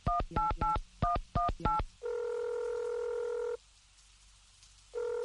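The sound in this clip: A telephone number being dialed: a quick run of short touch-tone beeps in small bursts, followed by a long steady tone that stops and then starts again.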